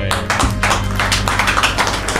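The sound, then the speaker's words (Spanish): Audience clapping on a television show, with scattered sharp hand claps over a steady low droning tone. The claps are moderately loud and there is no talk. “Aplauso para ustedes, Corillo.”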